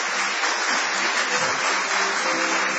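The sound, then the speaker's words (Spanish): Studio audience applause at a small live venue greeting a performer: a dense, even wash of many clapping hands that holds steady throughout, with no voices standing out. “Vamos a extender el aplauso para saludar a Patricio Barton.”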